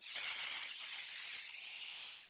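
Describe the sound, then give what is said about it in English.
A voice imitates white noise with a soft, sustained "shh" hiss, an airy steady rush held for about two seconds, quiet and alone. “white noise produces this like shh, similar to what you hear when you say”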